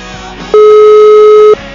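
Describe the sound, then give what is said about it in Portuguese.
A telephone busy signal on an unanswered, urgent call: one steady, mid-pitched electronic tone lasting about a second, starting and stopping abruptly over a low, constant background hiss. “não nos atende, é urgente, ele manda um recado automático que se é urgente é para ligar e ele não nos atende.”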